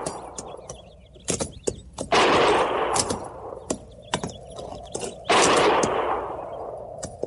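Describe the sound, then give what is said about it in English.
Gunfire from a range of low-lying hills about a mile to the north: many sharp cracks scattered irregularly, with two longer rushing bursts of noise swelling between them, and no voices heard. “Didn't sound like no regular shooting.”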